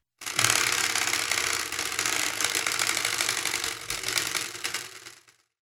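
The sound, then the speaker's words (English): Rapid, dense clicking of a spinning prize wheel rattles on steadily for about five seconds, then slows and fades out at the end. “I always have to read the spinny wheel because Shayna cannot read my handwriting, but it has landed on”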